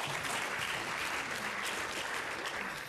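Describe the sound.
An audience applauds to welcome a lecturer before his talk, with dense, steady clapping that holds at an even level throughout.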